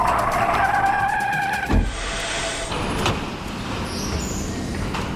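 A race car drives with a loud, rushing engine drone and the hiss of skidding tires. The engine whine is strongest early on, and a sharp burst of noise cuts in partway through.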